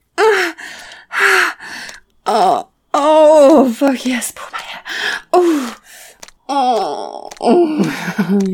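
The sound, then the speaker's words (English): Groaning and moaning from a person during sex: many separate loud vocal bursts of varying length, some rising and falling in pitch, with short gaps between. “Keep groaning in my ears.”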